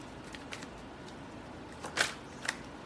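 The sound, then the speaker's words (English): A tarot card is drawn from the deck: faint papery rustles and soft handling, then a couple of crisp card snaps near the end. “I'm gonna pull out one more card because I really wanna get to the bottom of the situation.”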